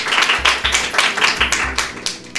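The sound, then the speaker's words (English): Clapping from a small audience at a Big Finish Day fan event, heard as uneven bursts of distinct claps repeating through the moment rather than a dense, continuous roar. “Anyway, thank you very much. A big round of applause, please.”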